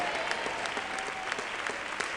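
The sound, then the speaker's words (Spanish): Church audience applauding during a service: dense, steady clapping from many hands continues at an even level throughout, without a clear start or end. “Si le va a dar un aplauso al Señor”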